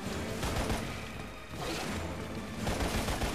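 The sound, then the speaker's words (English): Rapid, continuous gunfire in a video game as a player shoots at creatures that spew out smaller things. Loud, dense bursts dip briefly near the middle, then resume at full intensity. “Okay, let's shoot these things that are spewing out these.”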